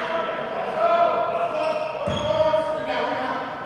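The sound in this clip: A single basketball bounce as a player gets ready for a second free throw, a brief thud heard under steady talk and background crowd noise.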